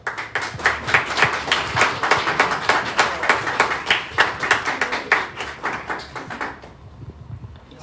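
Applause greets guests from a cooking project's team as they are welcomed onto a show. Many crisp, fairly even hand claps repeat in a steady rhythm, then thin out and stop near the end.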